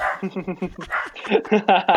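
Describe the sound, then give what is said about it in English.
A dog barks in a series of short, sharp yaps mixed with whimper-like sounds, heard under people talking. “Tennis dog. Woof.”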